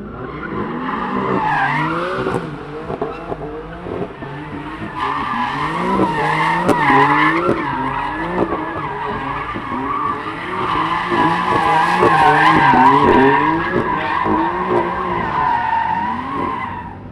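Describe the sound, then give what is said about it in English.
Tires squeal and skid continuously as a car spins donuts in tight circles, with a revving engine whose pitch repeatedly rises and falls beneath the loud, sustained screech. “Just full of donuts, doing good circles. It messes up the tires, but it's that adrenaline rush that everyone wants.”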